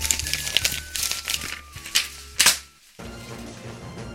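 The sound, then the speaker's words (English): Opening a paper envelope: crinkly rustling and tearing crackles with a few sharp clicks, followed by music that comes in near the end. “I guess let me look at this to be decided envelope here and open it up.”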